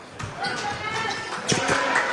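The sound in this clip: A basketball being dribbled during a game: several quick bouncing thuds under a commentator's steady play-by-play voice.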